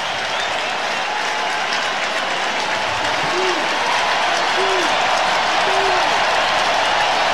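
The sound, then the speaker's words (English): Blue Jays fans in a baseball stadium keep up a loud, steady roar of cheering and clapping during the ninth inning of an 8-1 game against the Mariners, with the dense noise holding level throughout. “Blue Jay fans making noise.”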